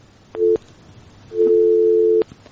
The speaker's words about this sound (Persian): تماس از این هم قطع شد.